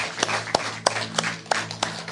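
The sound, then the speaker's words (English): Church audience clapping in a steady, even rhythm, with sharp claps spaced about a third of a second apart over a low sustained hum. “Hey, man, y'all can clap for that.”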